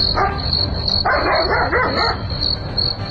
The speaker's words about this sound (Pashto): نه پوهیږم چې دا سپای ولې غاپی